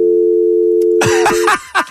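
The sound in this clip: A telephone tone on an empty line, a loud, steady buzzing note held for about a second and a half before it cuts off.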